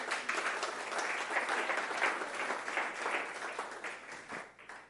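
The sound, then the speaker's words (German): A church audience claps in dense, sustained applause that holds steady for several seconds before gradually tapering off toward the end. “und dieses Klatschen soll für Jesus sein, nicht für mich, weil er hat es verdient, nicht ich.”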